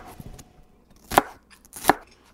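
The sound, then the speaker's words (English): A knife chops lemongrass into slices: two sharp, loud strikes on the cutting board, with a few faint taps before them. “how do we cut the lemongrass? Roughly smaller slices, just starting from the tip right here.”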